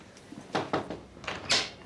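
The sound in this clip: Knuckles rap on an office door in a few quick, fairly loud knocks, spaced unevenly in two short groups.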